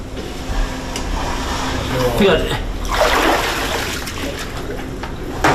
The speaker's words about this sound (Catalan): No, no, aquesta és la realitat del que passava a una casa a Granollers. Aquest so d'aigua era el so de l'aigua que entrava a la casa.